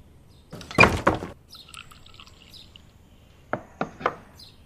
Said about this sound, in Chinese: 把门给我关上。